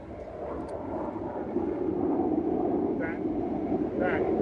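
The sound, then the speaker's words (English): A fast jet or cruise missile passes over during an air raid in Lviv, Ukraine, as a broad, loud, steady rumbling roar that swells slightly partway through and stays strong to the end. “Is that going down? No, but I've never seen a fast mover. I'm wondering whether that was a cruise missile. Did you see the aircraft? No, I never saw it. Are we in an air raid? Yes.”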